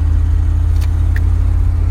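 Steady low engine rumble from a car rolling up to a gas station, droning evenly throughout at a constant level, with no voices.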